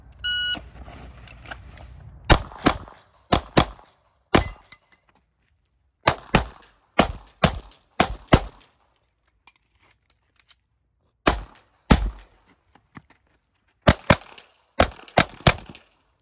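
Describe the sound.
A shot timer beeps, then a SIG Sauer P320 pistol fires on a competition shooting stage: many sharp, loud shots in quick pairs and clusters, broken by pauses such as a reload.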